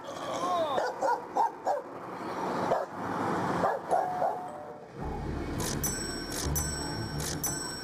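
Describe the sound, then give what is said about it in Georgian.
Several dogs, agitated around a stranger, bark and yip in many sharp bursts, at times with a whimper, while people talk between and over the barking. “უცხო ადამიანთან ერთად ძაღლები არანორმალურებივით იქცევიან. ყველა მხარეს გეკაჩებიან და სხვა ძაღლებს ეჩხუბებიან.”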